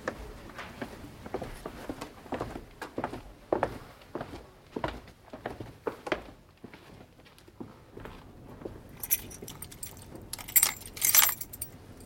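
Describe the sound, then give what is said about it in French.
Keys jangle in a radio drama scene where the key to a client's bank safe is brought over. Faint taps and shuffles come first, then bright metallic jingling rises loudly near the end. “Je vais vous faire porter la clé de votre coffre, Madame Christie, immédiatement. La clé, Madame Christie désire sa clé.”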